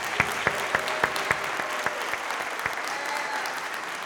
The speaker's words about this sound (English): Let's give her another hand.